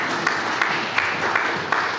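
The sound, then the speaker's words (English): Audience applause at a talk: a steady wash of clapping throughout, with a few sharper claps standing out now and then. “feel free to applaud whenever you want after a good metaphor”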